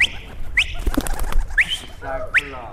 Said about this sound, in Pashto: د نوموړي شاوخوا شل ساتلې کوترې ډیری سپینه او شنه رنګونه لري.